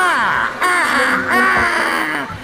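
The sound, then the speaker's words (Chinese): Shrill, wavering screeches attributed to an eagle mascot introduced as a safety officer to a class of children: a few drawn-out, harmonic cries that rise and bend in pitch, fairly loud and without talk. “房间里有只老鹰。”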